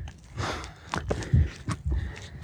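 Hasty footsteps climb a steep dirt path on the final stretch up to the Edelweißhütte. The steps are soft, uneven scuffs and thuds at a quick pace, faint and with no talk over them.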